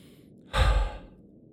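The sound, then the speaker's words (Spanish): One soft breath during a guided urban meditation practice, a quiet breathy rush that swells and fades within about half a second, alone against near silence. “Cualquier obstáculo inhala por la nariz y suelta por la boca.”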